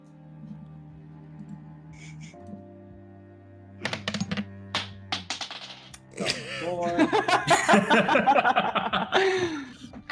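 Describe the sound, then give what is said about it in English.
During a tabletop game, dice are dropped on a table and picked up again: a run of small, hard clicks and rattles that grows busier and louder toward the end, over a low steady hum. “Yeah, I'm gonna pick up all the dice I dropped on. All right, I have to re-roll that because I don't know where it went.”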